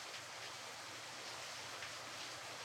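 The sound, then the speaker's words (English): Heavy rain pours outside as a steady, even hiss with no distinct drops. It is faint and unbroken throughout, with no voices. “Probably it's pouring out, as you can hear. I was gonna say, it's raining, isn't it? It's raining, and you're out there in the rain”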